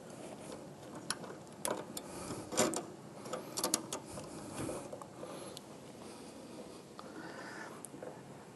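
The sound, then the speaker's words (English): Soft mechanical clicks and ratcheting come from hand-feeding welding wire through a single set of feed rollers on a MIG-style wire welder, then clamping the rollers and thumb-tightening them. The faint, irregular taps sit over a steady background hiss. “I've got a single set of rollers, and I hand feed it a little bit through there, and then go ahead and I'll clamp it down.”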